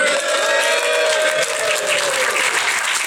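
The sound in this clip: A live studio audience cheers and applauds, with loud, steady clapping filling the full three seconds and voices rising through it.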